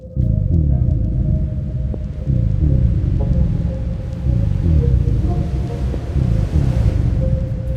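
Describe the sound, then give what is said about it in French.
Deep rumbling of water rising in a pond: a loud, low, continuous roar with repeated throbbing surges every second or two and a faint higher whistle above it. “Le seul son qu'il entend est le bruit de l'eau qui monte. Un son qui gronde et résonne en lui comme un glas funèbre annonçant sa fin prochaine.”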